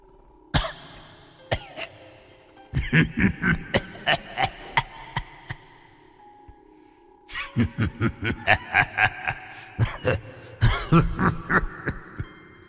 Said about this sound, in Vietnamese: Bên trong nhà vang lên tiếng ho khổ khổ khổ khổ.